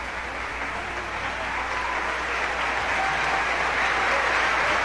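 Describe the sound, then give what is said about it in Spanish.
A concert audience at a symphony orchestra performance gives an ovation: dense, steady applause that swells slightly toward the end, with no voices standing out. “Escuchen ustedes la ovación.”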